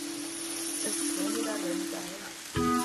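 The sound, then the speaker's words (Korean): Steady sizzling of sliced tomato and enoki mushrooms being stir-fried together in a pan: a continuous, even, fairly faint crackling hiss that holds throughout, with no clear breaks or separate events. “토마토를 썰어놓고 다른 재료도 함께 볶아주세요. 이렇게 팽이버섯을 넣어주세요.”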